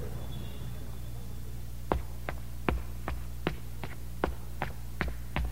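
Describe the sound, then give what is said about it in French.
Footsteps climbing the stairs of the Notre-Dame tower in Paris. After a quiet opening, a steady series of evenly spaced, sharp treads sounds alone over a low background hum. “Venez, on monte dans la tour. Il y a 350 marches pour arriver là-haut.”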